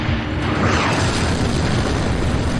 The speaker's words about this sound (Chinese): 我们发射了一枚穿甲弹，